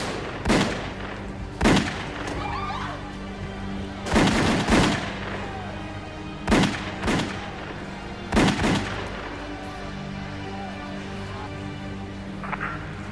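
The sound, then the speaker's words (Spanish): Gunfire in a shooting attack on men stepping out of a car outside a Manhattan restaurant: a series of sharp, loud bangs in singles and quick pairs at irregular intervals over a steady droning background. “Al salir del automóvil, varios hombres se les acercaron y comenzaron a disparar.”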